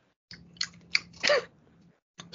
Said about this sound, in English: Munching and crunching. Too much lip smacking now.